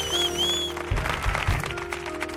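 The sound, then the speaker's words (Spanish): An audience cheers and applauds loudly. A dense wash of clapping and shouting swells in after a brief tonal opening, with heavy low thumps. “Por eso que queremos que venga gente como hoy con este maravilloso público que suena así de potente, mira cómo suena, ¡dale, dale, dale!”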